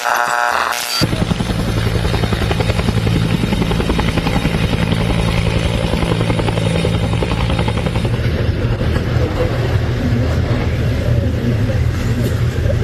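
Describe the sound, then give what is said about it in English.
A helicopter arrives at a village in Papua New Guinea's Oro province. Its loud, continuous rotor chop and engine drone hold steady across the whole clip, with no voices. “Sorry, that was the helicopter arriving”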